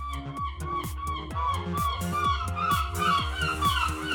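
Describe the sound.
Seagulls calling at a market, a rapid, loud series of harsh squawking cries repeated in a steady rhythm throughout.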